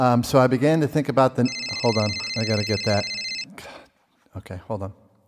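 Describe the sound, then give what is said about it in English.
An electronic phone alert tone for an incoming text message sounds as a bright, steady high chime lasting about two seconds while a voice keeps talking over it. “Wait, hold on. I got a text message.”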